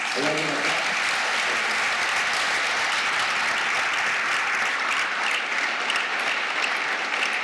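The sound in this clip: Loud, steady applause from a church audience during a sermon, honouring women who head their families; dense clapping runs unbroken for the whole clip, with a brief voice at the very start.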